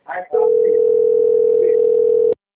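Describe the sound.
A steady, unbroken telephone dial tone holds for about two seconds after a brief voice at the start, then cuts off abruptly.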